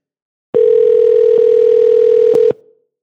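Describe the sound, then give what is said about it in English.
Telephone dial tone on an outgoing call: one loud, steady, unbroken tone lasting about two seconds, marked by a few soft clicks, then cutting off with a brief fading tail. “This is THN cover to cover calling you because we missed your damn call.”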